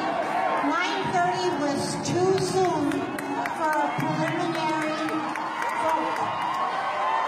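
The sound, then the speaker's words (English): A crowd at a Democratic political gathering reacts loudly, many voices overlapping in jeering and shouting that stays dense and sustained throughout, with individual cries rising above the din. “I love this. Listen to the audience. Boo. Listen to them.”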